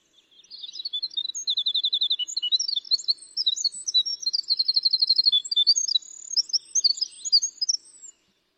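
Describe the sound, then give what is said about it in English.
Winter wren singing a long, rapid, flute-like song of high tumbling notes and fast trills that runs for several seconds alone before stopping abruptly. “Let's let everybody listen to this beautiful flute-like sound of the winter wren.”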